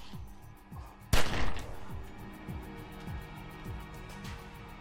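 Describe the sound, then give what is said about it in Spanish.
Two sharp gunshots come in quick succession in a dramatized shooting. A moderate background of repeated, downward-sweeping tones continues before and after. “Y le disparó dos veces en el torso.”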